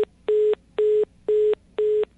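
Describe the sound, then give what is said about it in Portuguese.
A busy signal sounds after a dropped phone call: four steady, mid-pitched beeps in an even rhythm, each about a quarter second long with equal gaps between them, after a cut-off beep at the very start. “Caiu ligação, tivemos um problema aqui”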